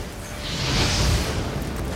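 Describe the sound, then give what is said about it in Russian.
Fire sprayed from an aerosol can makes a broad hissing whoosh over low rumbling, swelling to a peak midway and then easing slightly as it continues to the end. “Распыляет с баллончика огонь.”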